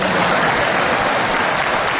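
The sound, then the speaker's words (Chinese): An audience claps continuously for about two seconds, a dense, even wash of many hands at a steady loud level with no voices over it. “谢谢大家热烈的掌声鼓励，您的掌声啊，对我们演员来说就是一针兴奋剂。”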